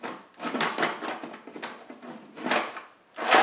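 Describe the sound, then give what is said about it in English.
A cooker lid being set in place and turned to lock over a pot roast, a series of scraping, rattling clunks of uneven rhythm. “So we're gonna go right ahead and set our lid on”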